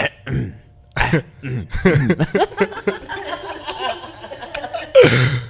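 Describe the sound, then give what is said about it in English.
Throat clearing from a man, a few harsh, raspy bursts separated by short pauses, loud and close, with a rougher burst near the end. “I got stuff in my throat a lot. I gotta clear that shit.”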